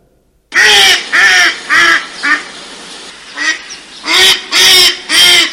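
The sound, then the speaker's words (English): A duck quacks loudly in a series of about eight harsh, nasal calls. The calls come in two runs separated by a quieter gap, with each quack short and evenly paced. “Quack, quack, that must be a duck.”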